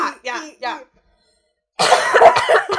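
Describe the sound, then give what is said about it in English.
Two people cough together in a rough, noisy burst mixed with throat clearing, loud and lasting about a second. It comes after a brief spoken phrase and a short silence. “In unison coughing.”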